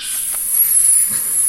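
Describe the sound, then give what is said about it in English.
A voice imitating Parseltongue makes a steady, loud, high snake-like hiss that lasts about a second and a half. “I said it in parcel tongue. It sounds like this.”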